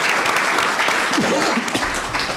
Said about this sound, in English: Please give her a hand.